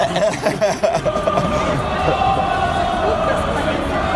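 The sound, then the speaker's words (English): Dense crowd din from Bayern football fans arriving with a band: steady hubbub and chatter with bursts of cheering, holding at an even, loud level throughout, with faint sustained tones running through the noise. “And a band just right on cue. Bayern fans have arrived. Welcome, Bayern, eh? The typical Bayern fans, not from Munich.”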